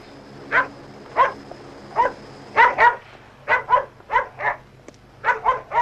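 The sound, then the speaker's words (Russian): A dog barks at someone carrying a suitcase at an airport in an animated cartoon scene. There are many sharp, mid-pitched barks in uneven bursts, some in quick pairs, clear and alone over a faint low hum. “Ресси лает на Ури.”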